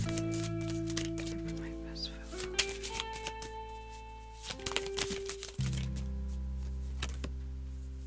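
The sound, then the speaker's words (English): Tarot cards are shuffled by hand in a long run of crisp, papery riffles and flicking clicks. The bursts come irregularly across about eight seconds. “do you guys like when I shuffle my cards on the mic?”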